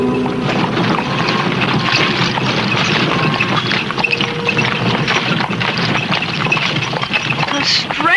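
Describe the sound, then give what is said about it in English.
A horse-drawn covered wagon rolls through the countryside with a continuous, dense rumble and clatter. Faint hoof clip-clops sit under the steady noise for the whole stretch. “Riding in a covered wagon. It's not nearly as uncomfortable as I thought it would be.”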